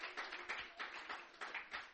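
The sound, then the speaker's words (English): A church audience claps softly and unevenly, with quick claps bunching into small bursts throughout. “And let's give the Lord a clap for Ruby.”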